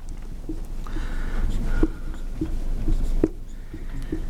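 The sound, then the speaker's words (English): Writing by hand: soft scratchy strokes and small taps in an irregular rhythm, quiet and continuous. “I'm gonna write it just a little bit different.”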